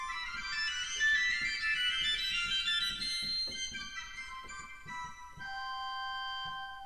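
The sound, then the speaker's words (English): Bright, high-pitched sustained chords from the three-rank cymbal mixture stop of a Laterno pipe organ, played on the choir manual. The chords shift a few times and hold steady at an even loudness, with faint low knocks beneath. “The 3-rank cymbal on the choir is from a Laterno organ, and it sounds like this.”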